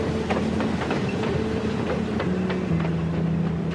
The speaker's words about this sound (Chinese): 现在车开了，记得配合。